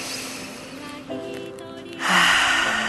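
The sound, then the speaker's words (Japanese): A deep breath drawn in, hand on chest, during a guided lung-breathing exercise: a soft, airy inhalation swells loudly in the final second over faint steady background tones. “胸に手を当てて呼吸してみましょう。息を吸って”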